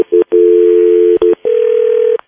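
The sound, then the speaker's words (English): Telephone line tones on a call being connected: loud, steady mid-pitched tones broken by short gaps and clicks, ending on a slightly higher continuous tone. “Okay, it's ringing.”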